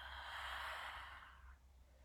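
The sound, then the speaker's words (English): A slow ujjayi exhale through the open mouth, as if fogging up a window: a soft, breathy hiss that holds steady, then tapers off over about two seconds, faint and with no voices. “Again, breathe in through the nose. Exhale through the mouth like you want to fog up a window.”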